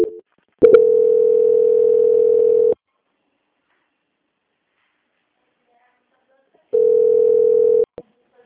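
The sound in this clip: Telephone line tones play while a bank call is transferred: two flat, steady buzzing tones, the first about two seconds long and the second shorter, separated by several seconds of silence.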